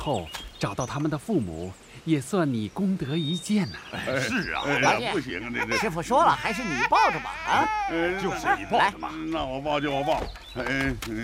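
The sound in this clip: A baby cries in loud, drawn-out wails with wavering pitch that rise and fall over several seconds, with breaks between sobbing bursts.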